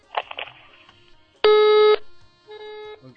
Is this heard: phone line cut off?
yes